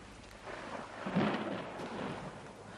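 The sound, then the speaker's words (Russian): Thunder rumbles as a thunderstorm gathers outdoors: a steady low roll under a broad hiss like rain, swelling to a heavier peak midway and then settling into a sustained rumble with no voices. “На дворе гроза собирается.”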